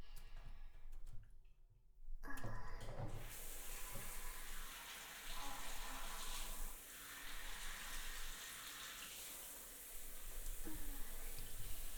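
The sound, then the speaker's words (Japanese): Running water rinses a gooey mess away, a steady hissing stream that starts after a couple of quiet seconds, then keeps flowing with slight swells and dips. “ドロドロを流しちゃうね。”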